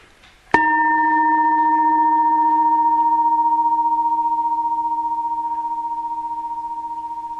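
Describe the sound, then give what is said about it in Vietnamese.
A bell struck once, giving a sharp onset and then a pure, steady tone with a few overtones. It sustains for about seven seconds and fades only slightly, heard alone. “Nhưng trong đầu mình không có nói ra đây là tiếng chuông.”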